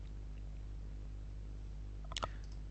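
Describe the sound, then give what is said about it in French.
A computer mouse clicks on photo thumbnails in a photo viewer, a quick pair of sharp clicks near the end after a long stretch of quiet, low hum. “Et ensuite, je peux accéder aux autres photos directement en cliquant sur leur vignette dans la partie droite de l'écran.”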